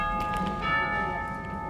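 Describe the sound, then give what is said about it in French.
Carillon bells of Whitehall chiming, a sustained, moderately faint ringing with steady, shimmering overtones that hold across the whole stretch. “Écoutez. C'est le carillon de Whitehall.”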